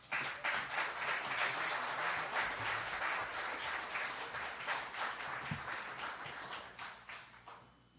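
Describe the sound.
An audience applauds to welcome a speaker at a Riverside gathering: dense, sustained clapping from many hands, loud at first and gradually thinning and fading toward the end.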